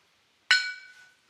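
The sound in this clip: Glasses clink once in a toast, a single bright ringing strike that decays over about half a second, alone in near silence.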